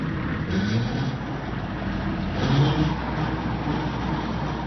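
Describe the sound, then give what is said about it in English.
A tractor engine, used for digging up rocks and plowing, gives a continuous low, grinding rumble that stays loud throughout and swells slightly about halfway through. “A tractor.”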